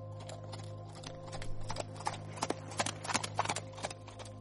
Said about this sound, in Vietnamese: rồi thúc ngựa phi nước đại trở về ngay trong đêm.